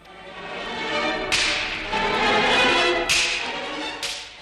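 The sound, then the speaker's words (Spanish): Three sharp cracks from a slapstick whip percussion instrument, each a loud, bright snap followed by a short fading ring, alone without voices. “Y ahora aquí está el que los castiga a todos cuando se portan mal en la familia de las percusiones, el látigo.”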